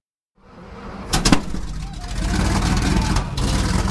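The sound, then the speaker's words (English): A vintage Sherman tank drives down a Boston city street, its engine fading in to a loud, steady, rumbling roar, with a few sharp clanks cutting through. “You really can't sneak up on anyone driving a vintage Sherman tank down the streets of Boston.”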